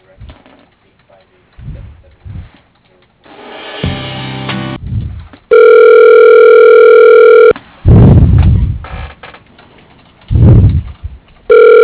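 Electronic telephone ringing while a call is being transferred: long, steady ring tones with pauses between them, after some short, uneven low sounds.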